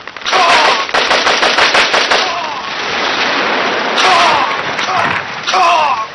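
Rapid gunfire aimed at an enemy tank during a tank battle. A long, loud run of chattering shots comes first, then shorter dense bursts return later.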